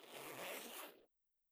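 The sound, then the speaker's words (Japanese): A clothing zipper is pulled down in one smooth, continuous zip lasting about a second, followed by silence. “ほら、チャック下げる。”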